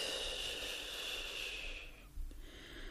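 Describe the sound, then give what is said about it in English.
A deep cleansing breath, a long, faint, airy rush of breathing that tapers off, then a brief pause and a soft low puff of air. “So let's just take a big cleansing breath in through our nose and out through our mouth.”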